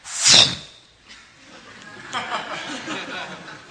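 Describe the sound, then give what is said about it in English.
A voice imitates the igniter of a gas grill as its red push button is pressed, opening with one sharp hissing burst, then trailing into quieter breathy, chuckling sounds. “That's the noise that you hear when you go today and you turn on the gas and you open up the lever for your gas grill and you push the red button and it goes.”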